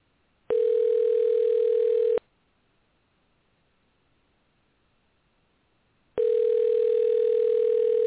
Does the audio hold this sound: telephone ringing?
yes

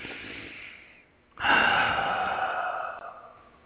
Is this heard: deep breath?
yes

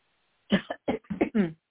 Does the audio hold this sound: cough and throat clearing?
yes

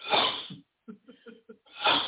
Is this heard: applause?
no

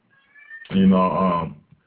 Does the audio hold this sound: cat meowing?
yes

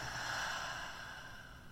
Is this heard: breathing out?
yes

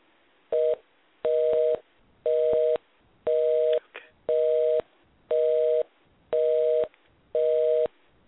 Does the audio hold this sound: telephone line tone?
yes

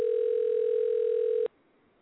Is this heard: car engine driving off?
no

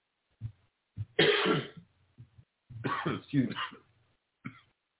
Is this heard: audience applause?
no

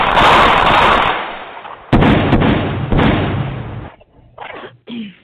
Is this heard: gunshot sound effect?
yes

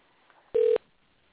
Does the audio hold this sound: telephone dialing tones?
yes

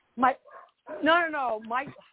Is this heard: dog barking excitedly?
yes

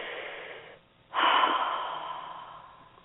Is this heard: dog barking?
no

